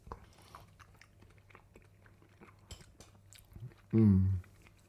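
Soft clicks and crunches of someone chewing food with chives and sour cream run quietly throughout. Near the end they give way to a short, loud voiced sound.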